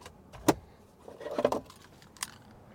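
Keys to a Ram pickup truck jingle as they are grabbed, a remote-start fob on the ring: one sharp clink, then a brief cluster of rattling jangles and a last light clink, all quiet.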